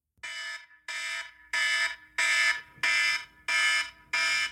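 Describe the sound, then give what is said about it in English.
Seven loud, harsh buzzing alarm beeps mark the end of a five-minute time limit. Each beep is about half a second long, evenly spaced in a steady rhythm, and heard alone. “So we will be working to an alarm. Yes. And that is for those people joining us for the first time. The alarm will sound like this.”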